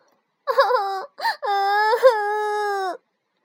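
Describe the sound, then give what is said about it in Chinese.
A young girl crying in bed: three wavering, high-pitched wails, a short one, a brief sob, then a long drawn-out cry. “原来小马德琳坐在床正中，哭啊哭啊，哭得眼睛红彤彤的。”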